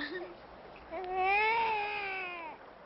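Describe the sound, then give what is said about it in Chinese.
An infant cries in a single drawn-out wail that swells in loudness, then fades, after a few short whimpering sounds. “孩子一见生人就哭了”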